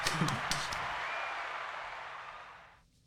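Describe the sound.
A small group gives a faint round of applause to welcome a guest. The light, soft clapping holds briefly, then tapers away and stops just before the end.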